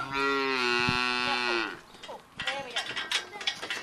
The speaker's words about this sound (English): your hand on top and your hand very close to the calf's head. And why is that important? So the calf cannot, like, look away, like, try and hit you and stuff with its head.